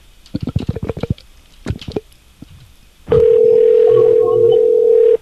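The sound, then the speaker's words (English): A telephone is dialed: a quick run of short tone pulses, then a second brief cluster, and after a pause a loud steady tone that holds for about two seconds before cutting off. “Alright. I'm going to dial here.”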